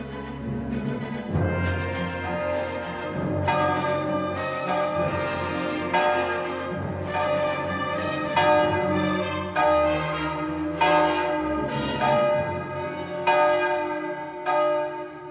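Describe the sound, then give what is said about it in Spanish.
A clock chimes with many ringing bell strikes in a steady, unhurried rhythm, each rich resonant tone overlapping the fading hum of the one before, heard alone without voices. “Solo esta salita y el reloj sonando.”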